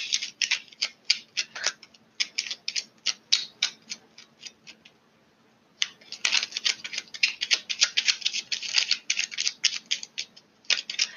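Tarot cards are drawn and shuffled in a rapid run of crisp, papery clicks and flicks. A short quiet gap comes midway before a denser burst of snapping riffles resumes.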